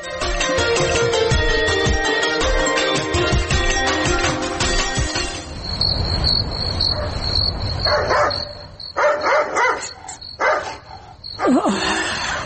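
A dog barks at midnight, with a few sharp barks bunched in the second half over a steady high insect chirring that continues behind.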